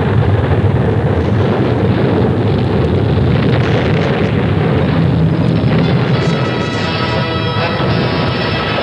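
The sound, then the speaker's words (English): Earthquake rumble sound effect for a dramatized quake in ancient Pompeii: a loud, continuous deep roar with grinding, crackling texture that holds steady throughout. “What is happening? It's an earthquake. We've got to run for it. Escape somehow!”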